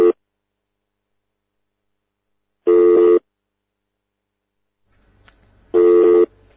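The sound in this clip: A telephone rings with a steady electronic trilling tone in evenly spaced bursts: a clipped ring at the start, then two full rings about three seconds apart, separated by near silence.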